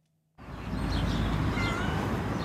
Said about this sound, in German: Eine Katze bettelt zwei Männer an